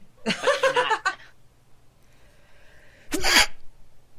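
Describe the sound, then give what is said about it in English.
A human voice imitates a creature's sneeze with one sharp, loud, breathy burst, preceded by a few seconds of chuckling vocal sounds and a quiet gap. “It just sneezed. Oh my god, that was actually quite cute.”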